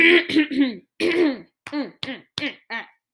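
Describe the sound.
Throat clearing: a series of short, rough, voiced bursts, with several close together at first and then a few quicker, separate rasps.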